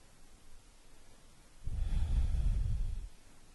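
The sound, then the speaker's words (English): One long, deep breath taken during a guided breathing exercise: after a quiet stretch, a low, airy rush of air swells up and holds for over a second before fading away. “Take a breath here. Empty it out. Another deep breath in.”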